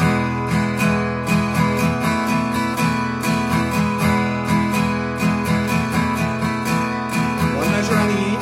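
Guitar strummed on an E sus four chord in a steady down-and-up pattern, a bright ringing chord struck in regular rhythmic strokes from start to end, with no voice.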